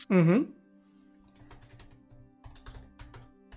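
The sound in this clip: Typing on a computer keyboard to answer chat messages: faint, irregular runs of light key clicks that follow a short, loud vocal sound at the start.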